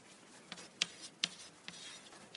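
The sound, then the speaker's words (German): Faint scratching of something being written down, a few short strokes with sharp little taps against a quiet background. “Ich schreibe mal auf, überströmende Gnade.”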